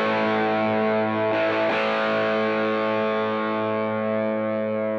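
Overdriven electric guitar: a 1979 Ovation UK2 played through distortion, with a loud, thick chord ringing with long sustain, a fresh strum near the middle, then a slow, steady decay, with no voices.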